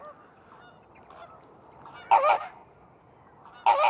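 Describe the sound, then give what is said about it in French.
Greater flamingos give goose-like honking calls: two loud, nasal honks stand out, with quieter calls before them. “Donc là, on est avec les flamants roses, voilà. Puis des petits limicoles derrière, des petits chevaliers.”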